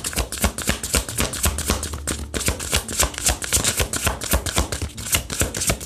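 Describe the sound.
Tarot cards being shuffled and drawn: a rapid, dense run of crisp riffling clicks and taps that carries steadily through the whole stretch, with no talking.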